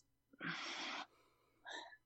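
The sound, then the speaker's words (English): A collective inhale and exhale taken together as a short breathing pause: two soft, airy rushes of breath, a longer one followed by a shorter one, faint and with no talk. “So let's just take a collective inhale and exhale, just like a 3 second”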